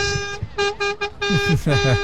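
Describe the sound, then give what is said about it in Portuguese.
Several short car-horn honks in a quick, uneven rhythm, bright and steady in pitch, with a man talking over them. “Tá aí o buzinar. Pode buzinar, mano.”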